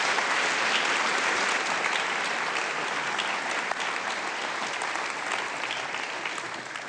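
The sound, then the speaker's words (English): Sustained, dense audience applause welcoming Searchlight Theatre Company, loud and even throughout and easing slightly only at the very end. “So would you give a massive Timberline welcome to Searchlight Theatre Company?”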